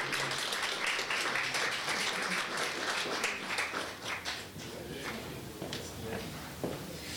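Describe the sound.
An audience applauds to welcome a speaker at a public forum in Lethbridge. The dense clapping holds strong at first, then thins out and tapers to quieter rustling toward the end.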